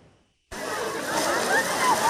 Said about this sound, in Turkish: Kimi denize girmeyi tercih etti, kimi gölgede piknik yaptı. Yaz aylarını İstanbul'da geçirenler sahilleri doldurdu. Görüntüler Caddebostan sahilden.